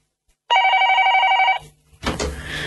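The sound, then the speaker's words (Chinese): A telephone bell rings nonstop in the morning: one loud, rapidly trilling ring burst that cuts off abruptly, then a short gap and a rougher, noisy sound. “原来已经朝头早九点四十二分，个电话仲不停咁响添。”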